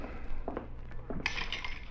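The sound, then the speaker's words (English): Glasses clinking faintly as a drink is mixed, a few light clinks and knocks of glassware, then a brighter, sustained chime near the end. “How about mixing us a drink? Sure.”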